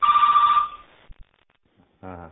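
A single telephone ring sounds as one bright, loud electronic burst lasting under a second. A few faint clicks and a short tonal sound follow after a near-silent pause.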